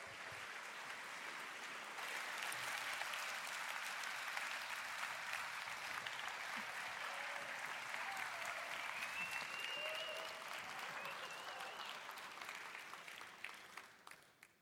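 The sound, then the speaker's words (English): A seminar audience at a Long Now Foundation event in San Francisco claps in sustained, dense applause. It stays steady for about twelve seconds before tapering off into a few last claps. “This is a rowdy-sounding audience”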